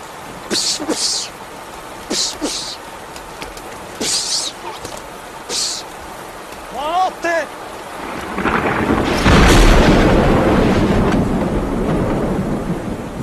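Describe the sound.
Thunder from a lightning strike in a rainstorm, a broad rolling roar that swells in the last third and holds steady, after several short, sharp noisy bursts earlier on.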